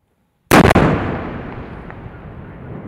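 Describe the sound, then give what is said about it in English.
A mine-clearing rocket line charge explodes, fired from a tank-bulldozer vehicle to blast a path through a minefield. One sudden, loud blast with a couple of sharp cracks at its start gives way to a long, slowly fading rumble. “This is what it takes to blast a path through a minefield. A monster of a vehicle, part tank, part bulldozer, fires a rocket attached to a cord of explosives.”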